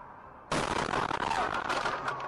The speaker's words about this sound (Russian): Вот момент взрыва.